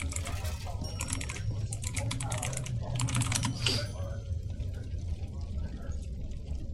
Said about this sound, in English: Excuse the typing.